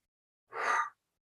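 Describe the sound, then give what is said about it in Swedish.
A single deep breath taken during a guided relaxation exercise: one soft, breathy rush of air lasting about half a second, alone against silence. “Och så tar vi andetaget. En gång till.”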